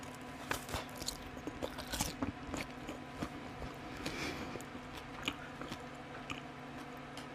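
Crisp biting and chewing into freshly grilled food with a crispy outside, dabbed with soy sauce and a little wasabi; many short crunches and squishy chews in an uneven rhythm, fairly loud with no talk.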